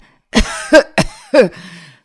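A man coughs hard, as if barely able to breathe: four harsh, voiced coughs in quick succession, each a loud rasping burst, with a strained wheezy tail after the last.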